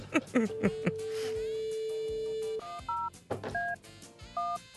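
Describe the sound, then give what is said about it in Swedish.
A telephone number is dialed: a long steady tone is followed by a few short electronic key beeps in an irregular rhythm. “Ska vi ringa då? Ja, gör det. Slå rätt också.”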